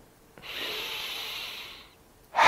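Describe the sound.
A deep breathing exercise drawing air into the chest: one long, steady, airy breath lasting well over a second, then the sharp start of another breath at the very end.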